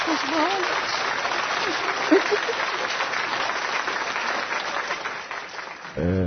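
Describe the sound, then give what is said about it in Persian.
Applause breaks out for a caller marking two years clean, a dense, steady wash of clapping that holds at an even level throughout. “امروز دقیقا 2 سال پاکم، برام دست بزنید به امید آزادی ایران.”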